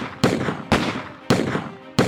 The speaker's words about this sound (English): Peacock and Updegraff, behind the corner of the jail, hurled a fusillade of blazing bullets in Bat's direction.